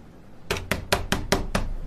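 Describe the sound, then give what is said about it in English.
Knocking on a door: six sharp, evenly spaced raps in a quick steady rhythm after a short quiet lead-in, loud and alone with no voices. “you going to answer the door?”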